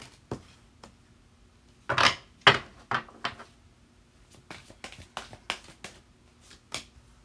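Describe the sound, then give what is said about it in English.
Oracle cards are handled and drawn from a deck before a tarot reading. A scattered series of sharp taps, snaps and flicks comes in irregular clusters over otherwise quiet, with no talking. “So I'm going to go ahead and pull some Gateway Oracle cards before I get on with the tarot.”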